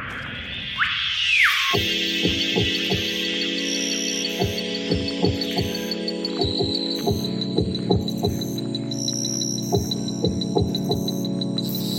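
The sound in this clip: An immersive tropical sound installation plays inside the largest greenhouse of a botanical garden in Nantes, built from French Guiana forest recordings. A sweeping tone glides early, then steady droning chords carry many rhythmic low throbbing pulses, with no talk.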